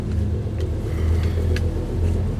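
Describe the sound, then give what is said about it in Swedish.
A car driving fast: steady, low engine and road rumble, moderately loud and unbroken, with a few faint higher swishes. “Vi kör snabbt.”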